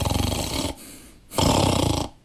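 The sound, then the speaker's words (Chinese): A storyteller imitates snoring with the voice in a Chinese storytelling performance: two long, loud, rattling snores with a softer breathy exhale between them. “老程打上呼噜了”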